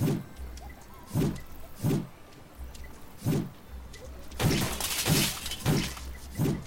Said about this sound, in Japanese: もうシールド壊されたマジかよ